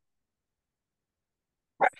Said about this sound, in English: Sorry, that is my dog.